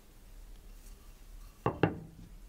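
Cooked eggplant is pounded in a mortar: two dull, loud thuds in quick succession after a quiet stretch.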